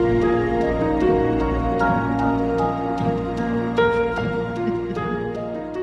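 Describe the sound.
Instrumental stock library music plays alone, with sustained low tones and layered harmonies under a steady pattern of light, crisp percussive ticks.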